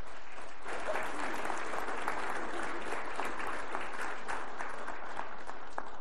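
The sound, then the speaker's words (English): A church audience applauds in sustained, even clapping that stays at a steady level throughout with no pause. “And I think some prayer and not only rejoicing, but maybe some applause to acknowledge that.”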